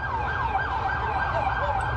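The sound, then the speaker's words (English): An ambulance siren wails as it carries a man to hospital from a New York park across from a courthouse. The tone sweeps up and down steadily and stays loud throughout, with no voices. “sirens from an ambulance taking a man to the hospital”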